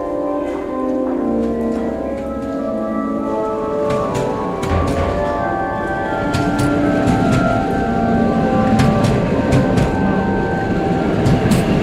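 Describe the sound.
A sleeping-car train arrives at a station platform, its low rolling rumble overlaid with sustained metallic tones and scattered sharp clicks that build toward the end.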